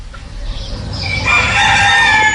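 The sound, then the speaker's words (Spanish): Roosters crowing behind farmyard walls in Cantabria at six in the morning, several answering one another; long harmonic crows build and overlap through the second half, loud and sustained over a low rumble. “6 de la mañana. Los gallos, de azas de cesto, en Cantabria, se replican y reafirman tras las tapias de los corrales, estirando el cuello.”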